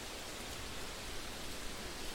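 Steady rushing water of a little creek at the bottom of a mountainside, an even, unbroken hiss with no distinct splashes and no voices.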